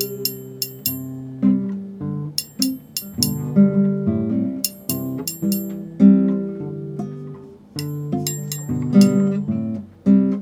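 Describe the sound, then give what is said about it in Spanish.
Forks clinking together, played as a household instrument in a children's song: many sharp, bright metallic clinks in a steady rhythm over a melodic musical backing, with no voices. “Los tenedores suenan así.”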